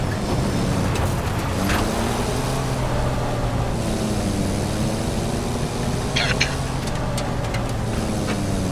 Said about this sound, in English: I need to get a tank. Oh, I need a tank or something. Got one of these bad boys. We can drive. Let's ride.